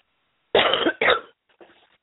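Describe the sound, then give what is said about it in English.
A person coughs twice in quick, forceful bursts, then gives a softer third cough after a short pause. “Excuse me for a minute, I have to cough and I apologize.”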